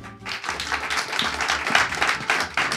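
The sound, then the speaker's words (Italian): Applause from listeners gathered at a live event hosted by a radio presenter. Distinct, fairly loud hand claps begin after a brief quiet moment and continue in an uneven, lively patter to the end. “un applauso a voi come facciamo”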